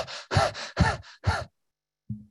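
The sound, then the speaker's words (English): A voice imitates intense, frightened breathing, as if chased by a tiger: four quick, loud, partly voiced gasping breaths in a rapid rhythm, then a pause and one brief low sound. “If I was being chased by a tiger, how do you think I'd be breathing? I'd be breathing like,”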